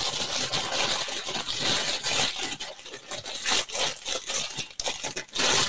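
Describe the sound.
An Amazon Secret Santa parcel holding fabric is ripped open from the back. Loud, sustained tearing and crinkling of the packaging comes in uneven bursts with a few brief pauses.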